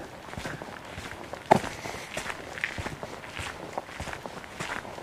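Footsteps walk along a narrow path that splits into a trampled trail, the steps steady and moderately faint, with one sharper, louder step early on.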